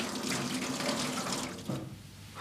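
Tap water running into a sink during dishwashing, a steady, full hiss of flowing water that thins briefly near the end.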